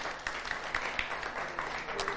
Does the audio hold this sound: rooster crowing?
no